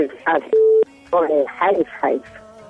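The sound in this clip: Telephone call tones sound between bursts of talking as a call is connected: a steady pure beep, then a lower tone.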